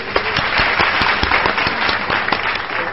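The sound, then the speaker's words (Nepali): Audience applause at a Nepali honouring ceremony as a recipient is called up to the stage; a crowd claps steadily for the whole stretch, and sharp individual claps stand out from the mass. “Tali.”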